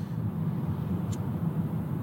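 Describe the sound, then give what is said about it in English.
Steady car road noise while driving into Sydney near the Anzac Bridge, heard as a constant low rumble with even loudness throughout and no voices. “I'm driving into Sydney right now”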